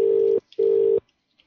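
UK-style telephone ringback tone on a prank call: two steady, mid-pitched buzzing bursts of equal length separated by a short gap, followed by near silence.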